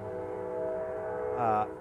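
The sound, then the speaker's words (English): A passing train gives a steady rumble, and a louder tonal blast from its horn swells briefly near the end. “Ooh, you hear that? That's the train. That's my nemesis. It's a nemesis really to anybody who records.”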